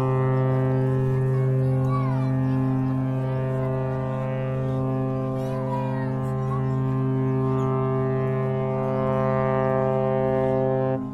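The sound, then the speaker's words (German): The mighty horn of the RMS St. Helena, the last Royal Mail ship serving St. Helena Island, sounds one deep, sustained blast with rich steady harmonics. It holds loud and unbroken through the whole clip. “So klang es bis vor kurzem auf St. Helena Island. Das mächtige Horn der RMS St. Helena kündigte das stets sehnsüchtig erwartete letzte königlich-britische Postschiff an.”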